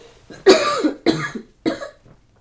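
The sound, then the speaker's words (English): A person coughs three times in quick succession. The harsh, breathy bursts are evenly spaced, and there is near silence between them. “I have a cough.”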